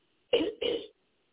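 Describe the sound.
A speaker clears his throat during a religious address, with two short, rasping bursts in quick succession and then silence.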